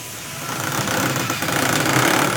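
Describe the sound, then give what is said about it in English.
Power tools sand and drill plywood-like desk boards pressed from recycled material. A loud, continuous mechanical whir with a slight rhythmic pulsing runs through the whole clip, with no voices. “These sandwich machines can create a range of materials from a leather-like fabric to these desk boards that are just like plywood. They are sanded”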